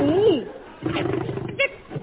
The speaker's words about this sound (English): Lion! It's a lion!